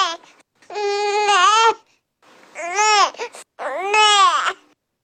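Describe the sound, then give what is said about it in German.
Baby making the 'neh' sound that signals hunger for milk: three whiny, strongly voiced cries, each bending in pitch, separated by short pauses. “Mit diesem Laut ne bestellen Baby ihre Milch.”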